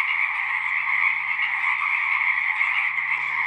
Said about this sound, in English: The revelry of the Pacific chorus frogs is scarcely affected by the engine vibrations from passing late night airplane flights.